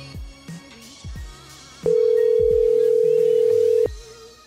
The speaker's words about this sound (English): This just in on the Macron show. New voicemail.